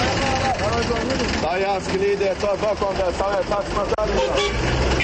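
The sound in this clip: Busy street sounds at a minibus station, where horns toot and engines run while voices call out continuously to passengers heading to different destinations.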